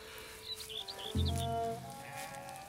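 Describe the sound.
A single sheep bleat sounds from a flock being driven over fields in hot sun, a short, low, throaty call after a few faint high bird chirps, with no talk.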